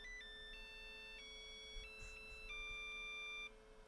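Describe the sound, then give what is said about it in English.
Electronic tones sound from a battery-powered device after its battery is removed and quickly reinserted: sustained, steady beeps that step between several pitches before stopping abruptly near the end. “Now, if I'm very quick, I take the battery out, put it back in, it makes a long beep. If I do it again, and one more.”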